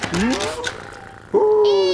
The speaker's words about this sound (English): Who's a lovely pussy? Who's been a clever little kitty cat and drunk all the milky whippy, eh?